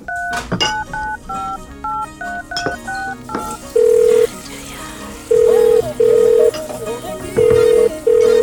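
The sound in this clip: Telephone keypad dialing tones set within a song: several steady, loud beeps of held pitch cut in over the music during the second half.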